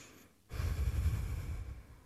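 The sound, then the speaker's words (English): People breathe in together during a guided prayer: a soft, steady breathy rush of air that swells after a brief quiet start and holds at an even level to the end. “So wherever you are at, let us close our eyes and breathe in the name of God, our Creator.”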